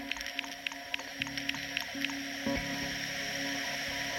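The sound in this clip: An electronic music track builds an aquatic soundscape from seashells and other sea objects used as rhythmic accents. Regular light clicking hits sound over a sustained watery drone and a low tonal hum.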